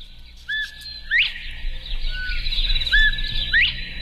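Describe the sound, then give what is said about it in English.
Northern bobwhite calling twice, each call a whistled note followed by a sharp, strongly upslurred whistle that ends higher and louder, with faint background hiss between calls. “that's the bobwhite. The northern bobwhite, another one that basically kind of says its name.”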